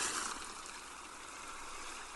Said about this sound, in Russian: Шум прибоя погружает вас в приятную дремоту.